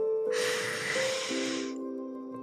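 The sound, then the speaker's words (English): A slow, deep breath in: a soft, airy inhalation lasting about a second and a half, heard over a faint, steady sustained musical drone. “Take a slow, deep breath in.”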